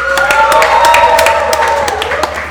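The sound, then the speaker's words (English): A live studio audience applauds, scattered sharp claps spread evenly over a steady, fairly loud wash of sound. “extra special thanks to our first ever live studio audience. Give yourselves a hand.”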